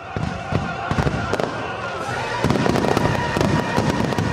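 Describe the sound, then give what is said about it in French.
Fireworks from a nightly display in Sydney, a dense, continuous barrage of crackling bursts and sharp pops that grows louder partway through. “Et puis comme si ça ne suffisait pas, un feu d'artifice est également tiré chaque soir.”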